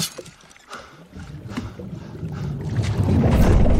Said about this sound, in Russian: Лодку немного потряхивает.